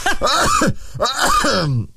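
Throat clearing and coughing from an irritated throat: two long, harsh, rasping bursts with a short gap between them, loud and with no other talk.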